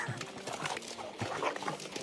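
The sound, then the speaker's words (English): Two dogs fighting, played back from a video: a steady, dense tangle of snarling and whimpering yelps fills the whole stretch at a constant level, with no pauses. “She's got two or three great dogs, Bama and Barkley. They got in a little fight here. Here, crank it up.”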